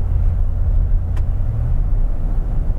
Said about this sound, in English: As soon as I hit a little rise, I'm losing speed. One downshift, two downshifts.